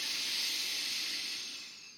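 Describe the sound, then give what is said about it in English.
A forceful breath during a deep-breathing exercise: a steady, airy hiss lasting about two seconds that gradually tapers away, quiet and with no voices. “Inhale very deeply and exhale powerfully.”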